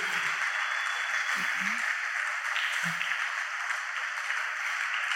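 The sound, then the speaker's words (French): A youth church audience at a French-language service cheers and claps for the glory of God, a dense, steady wash of sound that holds for the whole stretch, with a few voices calling out within it. “Est-ce que tu peux acclamer très fort pour la gloire de Dieu?”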